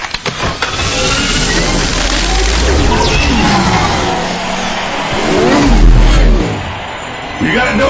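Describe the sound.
Light cycle bikes rev in a video game, their whining, synthetic engine tones sweeping up and down over a heavy low rumble. The roar grows loudest toward the end, and voices can be heard speaking over it.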